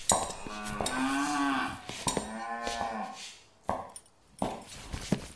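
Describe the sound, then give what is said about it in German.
Cattle mooing in a barn: long, loud, drawn-out lowing calls with a rough, tonal quality, followed by a few short, thumping knocks and rustles. “ich glaub, hier liegt noch ein Rind.”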